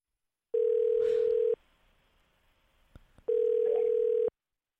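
Telephone tone after a call is cut off: two long, steady, loud mid-pitched beeps, each about one second, separated by a quiet pause, with no talking.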